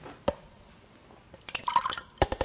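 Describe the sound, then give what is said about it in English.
Gin poured from a head and dribbling out: one drip, then a dense burst of splashy drips and trickles, then a few separate drops at the end, with no talk. “I'll just pour all this gin into his head.”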